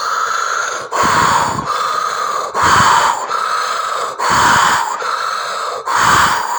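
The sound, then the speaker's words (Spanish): Forceful breathing in and out through an open mouth, loud and continuous. Harsh, rushing breaths alternate in a steady rhythm, with no talking over them. “Vas a llenar todo tu estómago de aire y lo vas a expulsar con fuerza. Vas a inhalar y exhalar con fuerza ese aire.”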